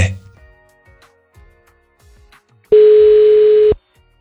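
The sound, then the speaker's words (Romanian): A single telephone ringback tone during a call, one loud, steady, mid-pitched beep lasting about a second, heard after a stretch of faint, scattered voices. “Stai că sună.”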